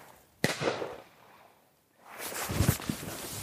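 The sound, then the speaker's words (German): Shotgun fire aimed at rabbits in a field: one sharp, loud report that rings out and decays, then after a quieter gap a longer burst of rough noise with a few smaller cracks. “Die schießen hier überall mit Schrot nach so Karnickel”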